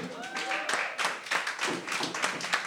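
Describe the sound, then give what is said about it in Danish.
Audience applause and clapping welcome a guest onstage at a live show recorded in a blues bar, a dense, steady patter of many hands lasting the whole stretch, with a few brief tonal sounds early on. “Mine damer og herrer, giv en kæmpe stor hånd til Dennis.”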